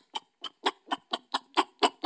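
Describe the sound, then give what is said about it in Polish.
A human voice imitates a flying bat with a rapid, evenly spaced string of nine short, breathy clicking chirps, each a bright, brief burst. “Nie wiem, czy widziałeś kiedyś blisko nietoperza, bo ja tak. On ma dosyć charakterystyczny dźwięk, jak lata. Taki.”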